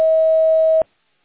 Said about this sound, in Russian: После сигнала, пожалуйста, запишите свое сообщение.